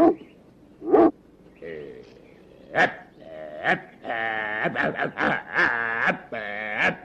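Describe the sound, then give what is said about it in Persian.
A person imitating a dog barking at a duck. First come a few short, loud voiced yelps, then longer wavering, bleat-like cries with strong tonal harmonics, sounding more like an animal wail than crisp barks. “چطوری من پارس کنم؟ تو بیا اینجا اینو نگرش دار، من بهش پارس میکنم.”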